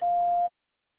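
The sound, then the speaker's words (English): A voicemail recording tone: one steady mid-pitched beep lasting about half a second, cut off cleanly into silence. “After the tone, please record your message.”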